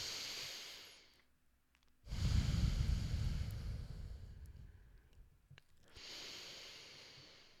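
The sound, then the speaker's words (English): Slow, deep calming breaths, faint and airy, with a few breaths in all and one long, heavy exhale stretching through the middle. “we're going to take three deep breaths and really regulate our nervous system for a minute”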